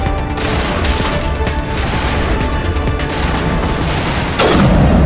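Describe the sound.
Gunfire and booms from a video game shooting match roll through as dense, continuous bursts with no clear gaps, loud throughout and swelling slightly near the end.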